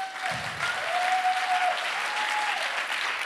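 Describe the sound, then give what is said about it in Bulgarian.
Audience applause in a church: a continuous, even wash of many hands clapping that holds at a steady level for the whole stretch. “А, ръкопляскането ви днес отнема само телевизионното време.”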